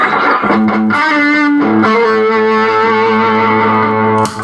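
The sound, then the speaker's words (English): A Stratocaster electric guitar played through a Gold Screamer overdrive pedal gives loud, gritty, sustained chords that ring out and change a couple of times before a final fresh strum. “I love the Gold Screamer and what it does with this Strat.”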